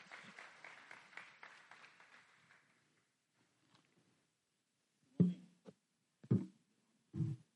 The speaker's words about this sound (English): Shall we put our hands together to welcome Dr. Mark Chan?